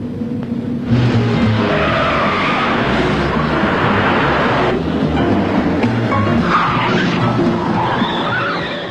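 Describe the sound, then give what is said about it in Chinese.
Cars race in a chase, with roaring engines and skidding tyres forming a loud, continuous, churning roar that surges several times. “一场精彩的追车表演开始，当然最后的获胜者是耀子和明仓。”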